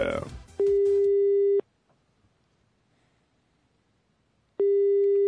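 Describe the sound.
A telephone busy signal on a call being placed: a steady single-pitch tone runs for about a second, falls silent for several seconds, then returns at the end. A short burst of voice comes just before the first tone.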